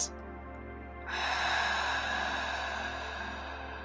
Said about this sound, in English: Take a nice deep breath in and out.